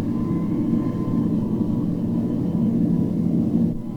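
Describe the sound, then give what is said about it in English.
Steady roaring engine rumble from a flying supercar in flight at high airspeed, a loud, continuous low drone that holds level throughout with no voices. “How do you like flying in the supercar”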